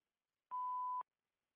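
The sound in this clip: An answering-machine beep before a message: a single steady, pure mid-pitched tone lasting about half a second, heard alone against silence.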